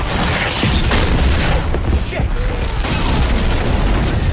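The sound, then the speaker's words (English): A boathouse explosion in a film, the building consumed by ballooning balls of fire, makes a dense, loud roar that rumbles steadily without a break for the whole stretch. “Hale and Cumberland look on in horror as the force of the blast knocks a cordon of armed police onto the floor and the building is consumed by ballooning balls of fire.”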